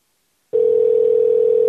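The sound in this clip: A telephone dial tone while calling back: after a brief silence, a loud, steady, single-pitched hum starts abruptly and holds unbroken to the end.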